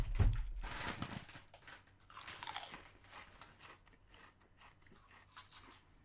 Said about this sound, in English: That was a good ass barbecue chip.